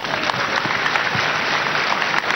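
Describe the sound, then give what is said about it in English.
A church audience claps for a man, a steady, even patter of many hands that continues without break. “Clap for him.”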